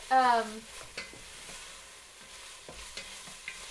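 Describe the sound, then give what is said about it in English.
Onions and garlic frying in a pan, with a faint sizzle and a few light clicks and scrapes from stirring, all fairly quiet. “your onions and your garlic are likely, starting to get to the point where they'll be ready.”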